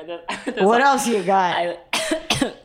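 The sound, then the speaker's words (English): A person coughs and chokes after inhaling rosé wine down the wrong tube while laughing hard. Strained, voiced, laugh-like coughing comes first, then two short, sharp coughs. “I have fully inhaled my rosé down the wrong tube, laughing so hard.”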